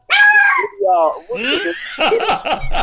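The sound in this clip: A dog barks at someone moving nearby, short sharp barks toward the end mixed in with men talking and laughing.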